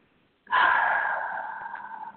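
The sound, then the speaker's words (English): A single deep breath, taken in through the nose and let out through the mouth during a guided relaxation, begins abruptly and stays airy and steady before slowly fading. “now another breath in through your nose and out through your mouth”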